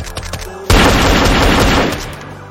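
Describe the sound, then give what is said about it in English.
Heavy gunfire during a police shootout erupts as a sudden, loud, dense roar of rapid shots that runs for over a second before it tapers off. “Officer down! Officer down! We're taking heavy fire!”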